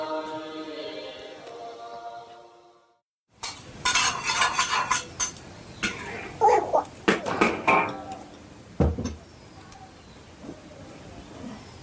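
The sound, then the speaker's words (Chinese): Clinking and clattering of utensils against pots and dishes while a meal is being cooked: many sharp, irregular knocks and chinks of varied loudness, after a steady tonal passage at the start. “还在做饭，饭马上就要熟了。”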